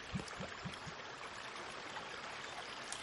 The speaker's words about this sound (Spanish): Junto a un río, Beatriz se arrodilla para recoger agua.